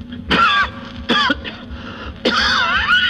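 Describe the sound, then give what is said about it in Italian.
Three harsh, loud coughs from a person, with the first two short and close together and the last one longer and raspier. “Mannaggia, sta tosse.”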